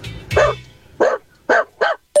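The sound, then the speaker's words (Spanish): A human voice imitates a small dog barking: five short, bright yaps with a rough, nasal tone and even pauses between them, loud and without talk. “Es la mejor versión de mi imitación, ¿eh? Aquí va, un perrito.”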